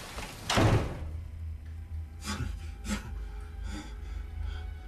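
A door being locked: a soft thud, then a few quiet, separate clicks and rattles from the lock, faint and spaced out by short pauses.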